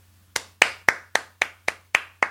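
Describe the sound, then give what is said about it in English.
Eight sharp, single hand claps from one person demonstrating applause, each a crisp isolated smack in a steady, even rhythm, heard alone over a faint low hum. “To applaud or to clap is to put your hands together.”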